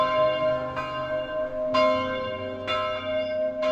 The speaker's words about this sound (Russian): Звон раздался колокольный